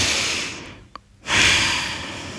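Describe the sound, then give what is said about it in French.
A deep breath drawn in: after background noise falls away into a short hush, a loud airy inhale swells up and holds to the end, unaccompanied by speech. “Étape 1. Prendre une large inspiration.”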